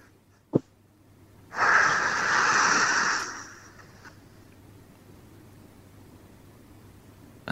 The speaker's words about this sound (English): Give us the best breath you can.